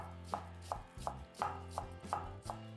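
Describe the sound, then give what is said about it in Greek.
A knife finely chopping white cabbage on a board in a steady, even rhythm of firm crunchy strokes, each a clean thud with a crisp edge, over a low constant hum. “Λευκό λάχανο, επίσης ψιλοκομμένο.”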